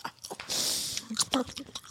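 Food being chewed with short, crunchy bites and wet mouth sounds in an irregular rhythm. A breathy rush of air comes in between the bites.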